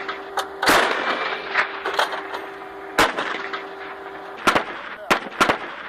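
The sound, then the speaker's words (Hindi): Gunfire erupts near military posts: a few loud, sharp shots crack at irregular intervals, with fainter reports between them over a faint, steady hum. “200 metre पहले अचानक उन्हें firing की आवाज सुनाई दी।”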